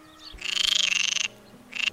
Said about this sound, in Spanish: podrás escuchar en las charcas y pequeñas lagunas cerca del pueblo distintas especies de anfibios, como la rana común